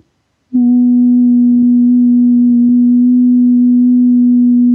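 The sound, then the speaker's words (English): A steady sine-like test tone begins after a short silence and holds at one pitch for about four seconds, loud and even, with faint overtones above it. “you can also just do that frequency sweep up and down in your head and listen for the frequency of your thymus. Let me do it and see what I get.”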